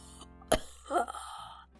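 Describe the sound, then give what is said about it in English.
A short, forceful breath blown out into a breath scanner: a brief airy huff that follows a single sharp click, with no talking. “I guess breathe that freshly made dome air into the breath scan.”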